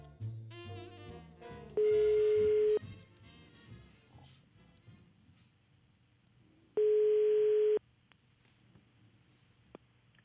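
Telephone ringback tone while a number is dialled: two long, steady, evenly pitched tones, each lasting about a second, separated by a few seconds of quieter background.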